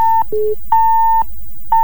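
Telephone tones as a radio phone-in call line cuts off: a short high beep, a lower beep, then two longer high beeps with a steady gap. The tones are loud, clean and electronic.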